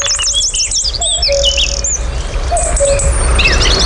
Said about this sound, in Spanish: Y enseguida van a empezar a incorporarse uno a uno las aves del día. El cuco, el petirrojo. Es de noche, pero ya suena el día.